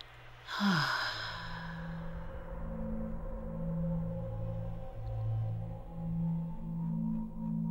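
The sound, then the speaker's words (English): A soft breath drawn in through the nose during a guided meditation, one gentle airy inhale over sustained low musical tones that carry on throughout. “connect with your spirit, with your breath. In through the nose and”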